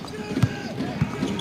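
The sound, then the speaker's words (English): A basketball is dribbled on the court during a women's game, with a few hollow, punchy bounces spaced at an uneven rhythm over a murmur of gym noise. “Backs it up a little bit on the dribble, right in front of us here.”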